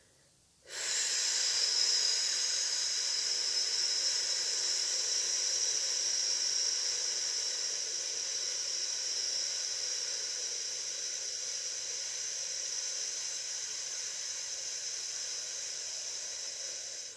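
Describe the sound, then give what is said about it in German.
A strong, sustained "f" exhalation during a vocal breathing exercise: one long, steady, breathy hiss that starts abruptly and holds at an even loudness for about sixteen seconds, heard alone. “Einatmen, den Atem stehen lassen und dann nochmals auf ein starkes F.”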